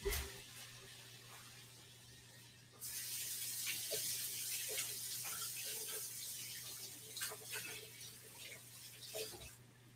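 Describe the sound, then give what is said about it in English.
Running tap water as hands are washed, midway through cooking blueberry pancakes: a steady, loud hiss of flowing water starts abruptly about three seconds in, continues evenly and cuts off just before the end. “And I'm gonna wash my hands really quick.”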